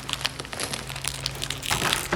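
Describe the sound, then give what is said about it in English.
Plastic wrapping crinkles and rustles as it is pulled off a big box, a dense, steady run of crackles at moderate loudness over a faint low hum. “Let's take the plastic off.”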